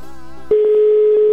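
A telephone line tone holds one steady, loud mid pitch while a call is being dialed. It begins abruptly after a brief stretch of music cuts off and continues unbroken to the end.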